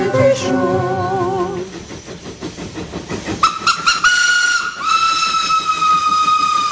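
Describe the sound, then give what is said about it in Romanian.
A steam train's whistle sounds as it arrives at a station: a loud wavering harmonic blast first, then hissing and rhythmic chuffing, then a long, steady, high whistle held to the end. “Trenul Orient Express din direcția Istanbul-București sosește în stația Vârgiorova la linia 1.”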